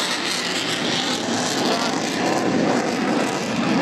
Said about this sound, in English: Mindle Beach, and we can see the plane almost on its half axis, pulling over the crowd, pushing up.